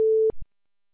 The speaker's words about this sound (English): Please leave your message after the tone.